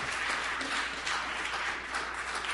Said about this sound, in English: Please give a warm House of Mercy welcome to Angel.